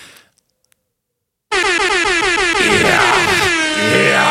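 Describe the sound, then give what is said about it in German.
A sound-effect button fires an air horn of the kind club DJs blast when a party gets going. After a short silence it bursts in loud and abrupt, as a rapid stuttering run of brassy honks that continues to the end. “Kurze Geschichte dazu, ich habe diesen Sound Airhorn, ne? Im Club, das haben ja DJs früher in den Clubs auch ab und zu gemacht, wenn so Turn-up ist und wenn die Leute dann super doll Party machen.”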